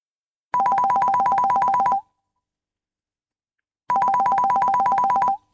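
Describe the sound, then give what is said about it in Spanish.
A telephone rings with an incoming call: two loud bursts of rapid electronic trilling pulses, each about a second and a half long, separated by a long silent pause. “¡Nos está entrando una llamada!”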